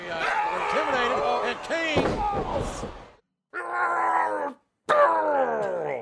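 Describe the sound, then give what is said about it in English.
A wrestler at a 2006 pro wrestling event grunts and groans while delivering a sidewalk slam, a big man's move. Loud, strained vocal bursts come in three stretches separated by short silences, with a sharp impact amid the first. “our grunt of the night in this match here. Imposter Kane hits the ultimate big man move. That's right, a sidewalk slam, baby. And when he does, he makes this sound.”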